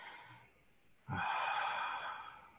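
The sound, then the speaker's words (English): A person draws a deep breath during a guided calming exercise with a hand on the heart: a faint, soft breath first, then a longer, louder airy rush of breath that holds steady and slowly fades. “I breathe in. And I breathe out, and I exhale all anxiety.”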